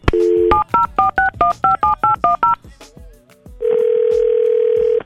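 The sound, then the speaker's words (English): A telephone number is dialed on a touch-tone phone: a brief dial tone, then ten quick, evenly spaced two-tone key beeps, a short pause, and a long, steady ringing tone. “Let's give her a call.”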